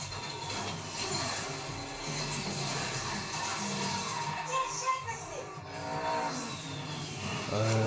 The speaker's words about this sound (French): le drone, parce que c'est un drone.